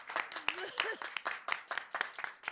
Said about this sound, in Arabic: عطوا بعد صفقة.